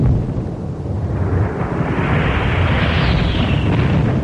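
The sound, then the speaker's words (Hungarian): A grenade explosion in a radio drama scene at the front at night: a loud, sustained rumbling roar with no single sharp attack that fills the whole clip, its hiss brightening toward the end, with no voices. “Gránát!”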